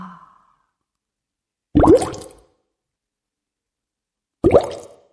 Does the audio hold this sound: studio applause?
no